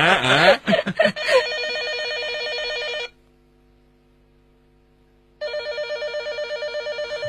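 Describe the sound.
A telephone rings in two long bursts of bright, trilling bell-like tone, separated by a stretch of near silence.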